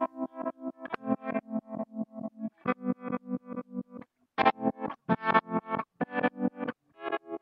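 Rewind effect from a multi-effects unit on a tonal musical line. Choppy notes swell up and cut off abruptly in a fast, stuttering rhythm that sounds reversed, with a brief gap partway through. No voices.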